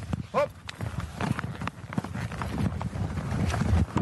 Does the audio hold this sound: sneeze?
no